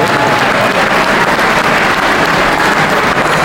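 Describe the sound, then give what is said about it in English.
Audience applause for award recipients at a small-business awards ceremony: dense, steady clapping at a loud, even level throughout, with no talk. “Let's give a big round of applause to the Center of Excellence Awards recipients.”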